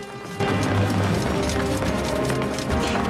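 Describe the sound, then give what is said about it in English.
Running footsteps of a figure dressed as a night watchman sprinting out of a castle with several guards in pursuit, a rapid pounding rush that starts abruptly and stays loud over a dense, rumbling bed. “The figure, dressed as the night watchman, sprints out of the castle, closely followed by several guards.”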